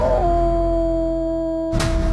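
A dog's howl, a sustained mid-pitched tone with clear harmonics that holds steady for under two seconds. It cuts off abruptly and a brief burst of noise follows.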